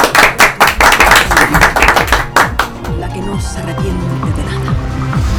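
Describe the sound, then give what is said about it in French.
Hosts in a studio applauding their single spectator: a quick, even run of many sharp, loud claps that stops after a few seconds, when a voice begins talking. “nous avons la joie d'applaudir celui qu'on va essayer de fidéliser au fur et à mesure de nos émissions.”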